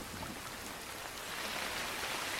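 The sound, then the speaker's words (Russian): Heavy rain pouring down over a forest, a dense, continuous hiss of countless drops that holds steady and swells slightly louder toward the end, with no voices. “Над куполом леса хлещет ливень.”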